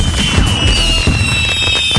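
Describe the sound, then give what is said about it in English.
Canada Day fireworks display with dense, loud crackling and popping that runs continuously, a steady high whistling tone sounding through the bursts. “end the night with a spectacular fireworks display between 9:30 and 10 p.m.”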